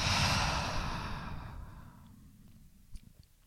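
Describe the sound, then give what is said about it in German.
A deep breath during a guided relaxation exercise, heard as a long, airy exhale that starts loud and tapers gradually over about three seconds, with no talk. “Ein letztes Mal atme ein und aus.”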